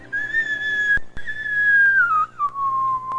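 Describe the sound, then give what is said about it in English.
A person whistles a clear, loud tone during a chess game. The pitch holds fairly level, then slides lower toward the end, and a couple of sharp taps break in near the middle. “Why are you whistling?”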